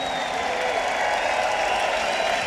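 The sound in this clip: Crowd at a live concert cheering and applauding, a steady, dense wash of clapping and crowd noise held at a fairly low level throughout without a clear break.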